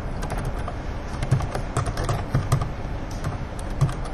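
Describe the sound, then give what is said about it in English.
Typing on a computer keyboard while entering a library web address. Many quick, light keystrokes tap at an uneven, steady pace, with no voices. “I'll type in my university's library's web address and generate.”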